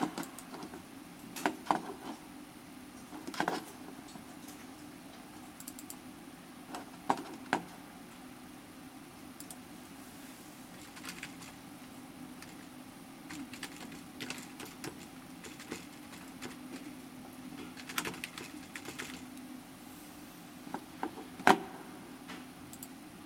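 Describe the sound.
A computer keyboard is typed on while someone searches online, giving faint, sparse, irregular clicks and taps separated by quiet pauses.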